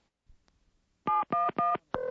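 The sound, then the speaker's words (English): Telephone keypad tones as a call is dialed: four short, evenly spaced electronic beeps. The last beep is slightly lower in pitch, and no voices are heard. “I have her phone number, but I was told to dial 711.”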